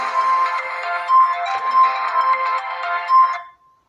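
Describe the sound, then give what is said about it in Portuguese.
A phone ringtone sounds for an incoming call, a bright, tonal melodic pattern pulsing with a few louder swells before stopping abruptly. “É, uma ligação entrou aqui para momento.”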